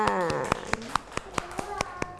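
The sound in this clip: Rhythmic hand clapping in a children's classroom follows a teacher's call to applaud a pupil. Many sharp, evenly spaced claps fall at about four per second, and a voice speaks over the opening moments.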